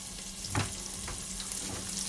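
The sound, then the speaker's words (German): Onions frying in hot fat with cumin give off a faint, steady sizzle. A few brief crackling bursts, like stirring in the pan, rise above it. “Und jetzt ist der Fett heiß, ich habe die Kreuzkümmel drin. Also zunächst kommt das, was man typisch auch in der europäischen Küche kennt, Zwiebeln rein.”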